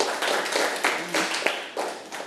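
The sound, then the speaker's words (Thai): Classroom applause as students clap for three classmates who answered a question: steady, dense clapping of moderate loudness that carries on for about two seconds with a few slightly sharper peaks. “ปรบมือเพื่อนทั้ง3คนที่ตอบค่ะ”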